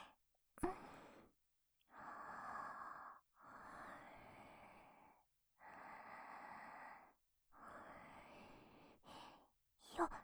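Slow deep breathing, four long airy breaths in and out separated by short pauses, soft and quiet, with a few brief clicks at the start and end.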